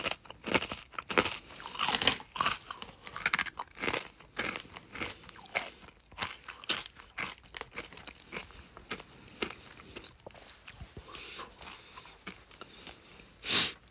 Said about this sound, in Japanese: なんか見た目も普通のせんべいだしね。なんか唐辛子っぽいの全然くっついてないし、まあ、うまいはうまいけど